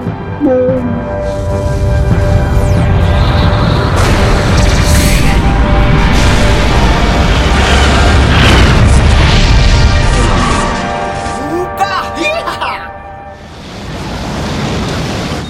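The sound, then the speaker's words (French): An exploding base in a French audio drama: a loud, sustained low roar and crashing rumble lasts about ten seconds, then drops away, leaving quieter scattered sounds. “La base Nemesis vient de totalement exploser.”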